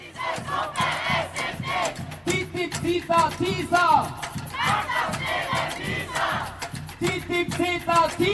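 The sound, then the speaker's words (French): Protesters against North American free-trade treaties chant outside the Austrian chancellery, with rhythmic shouted slogans and massed voices rising and falling in bursts over a constant crowd murmur. “Manifestation devant la chancellerie autrichienne.”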